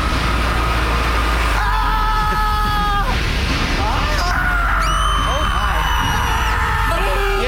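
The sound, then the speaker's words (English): A voice imitates the screams and yells of an imagined scream factory, with a few wavering, rising and falling cries over a loud, continuous droning background. “What would a screamery sound like, Beckler? It'd be a horrible place to work. Imagine you walk into the screamery.”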